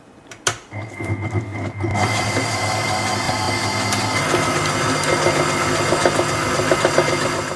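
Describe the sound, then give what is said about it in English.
An electric mixer whips cream with vanilla essence, starting after a few clicks and settling into a continuous, steady whirring motor hum. “Then add 1/2 teaspoon of vanilla essence. Now we want to mix this, start it on low and then speed it up to high. We want this to be really nice, thick and creamy.”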